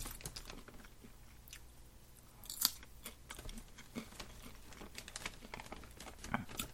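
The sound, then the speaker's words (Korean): Popcorn being chewed and crunched in a steady run of many small, irregular crisp bites and clicks, all faint, with a couple of slightly louder crunches and no talking. “저는 지금 팝콘을 먹고 있고요.”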